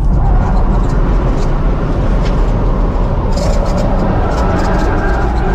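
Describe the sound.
A Tesla Model S Plaid races through the corners of a track during a lap record attempt, giving a loud, steady rushing roar of motor and wind that stays dense and unbroken throughout.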